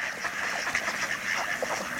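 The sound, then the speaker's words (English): Ducks floating in a sheltered bay quack in a busy, overlapping chorus, many short nasal calls tumbling over one another at a moderate, steady level. “Ducks float in protected bays.”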